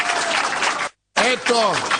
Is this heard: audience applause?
yes